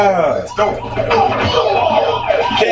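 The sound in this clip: Police car sirens from a video game wail loudly and continuously, their bright tones sweeping up and down in pitch throughout.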